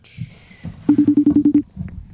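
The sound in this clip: A phone line button is pressed to put a caller through, giving a rapid burst of short, identical electronic beeps at an even rhythm. The beeps are clear and loud against a low background.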